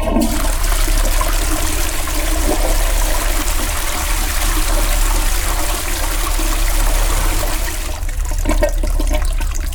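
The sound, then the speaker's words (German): Rushing water from a clogged toilet that will not flush, with water flooding onto the floor, a loud steady gush and trickle running unbroken through the whole clip, with no talking. “Das spült nicht.”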